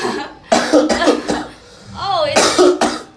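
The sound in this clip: Coughing and exhaling follow a first puff of marijuana. There are a few harsh, raspy coughs and breathy exhalations, with voiced, laugh-like sounds between the bursts.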